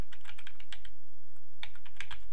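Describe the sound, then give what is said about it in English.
Typing on a computer keyboard while entering text in a photo-editing program: a quick run of light key clicks, a pause, then a few more keystrokes. “say I hit return and try to type another line”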